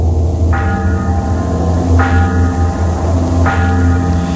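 A bell tolls three times at an even, slow pace within a dark ambient industrial piece, each strike ringing out over a low, sustained droning bed.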